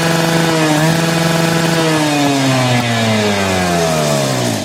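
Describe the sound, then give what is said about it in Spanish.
Dental drill whirring in a loud, steady, continuous whine whose pitch drifts slowly lower, with no talk over it. “O sea, el torno le suena así a ustedes.”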